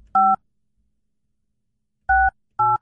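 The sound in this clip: Telephone keypad tones dial an international number to Slovenia: three short, steady electronic beeps, the first standing alone before a long silent gap, then two more in quick succession.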